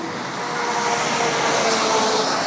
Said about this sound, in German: Was ist das für ein LKW? Ist auch geil, aus so einem Mini-Sattelschlepper.